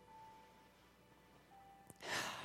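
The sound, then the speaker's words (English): A deep breath drawn in during a group prayer: one breathy inhale near the end, after near-quiet with a faint steady tone. “I invite you to close your eyes if that's comfortable for you. Let's just take a deep breath in.”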